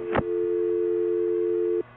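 A telephone call tone follows a brief click: one steady, low electronic tone holds for about one and a half seconds and then cuts off abruptly.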